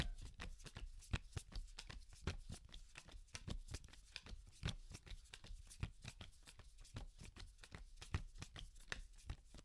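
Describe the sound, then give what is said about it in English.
Playing cards shuffled with a blackjack dealer technique: a steady run of many quick, crisp riffling clicks and flutters, evenly paced throughout, with no talking. “he's doing a blackjack dealer technique. I played a lot of poker growing up, so this is just how I'm good at cards. This probably sounds quite good.”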